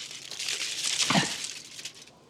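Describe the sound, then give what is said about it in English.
A chocolate bar's packaging being torn away: one continuous crinkly, papery rip lasting about two seconds, loud and bright, then trailing off. “They hold an end each, close their eyes and tear the packaging away.”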